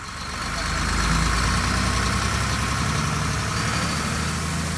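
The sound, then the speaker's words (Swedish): Tour bus engine as the vehicle pulls away late at night, carrying a rock band south toward the next city. A steady, loud, low rumble with broad hiss swells over the first second, then holds even throughout with no voices. “Chauffören kör ut på vägarna och styr söderut mot nästa stad och nästa konsert.”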